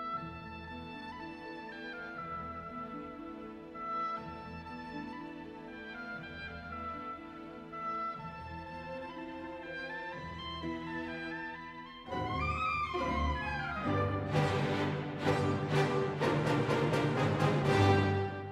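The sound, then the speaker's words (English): Orchestral farruca, a flamenco dance, from a ballet. A steady, rhythmic passage with sustained melody swells midway into a louder, brighter section with strong, punchy accents. “the miller's wife invites her husband to dance a farruca, which is a type of flamenco dance. It sounds like this.”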